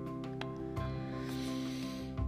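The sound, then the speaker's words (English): A deep breath drawn in through the nose gives a soft, airy hiss lasting a couple of seconds over a faint steady hum. “Let's close out this practice with three deep breaths. Inhaling through the nose,”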